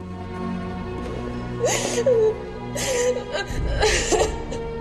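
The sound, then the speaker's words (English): A woman sobs inconsolably while clutching a lifeless body, her voice breaking into three gasping, whimpering bursts over a steady musical drone. “Abby unties the ropes from Summerfield's skin-torn wrists and hugs her lifeless body close to her own in a fit of inconsolable sobbing.”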